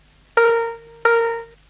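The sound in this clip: Two chime-like tones ring out as a signal to turn to the next picture, each struck clearly and held briefly before fading, the second following the first after a short gap.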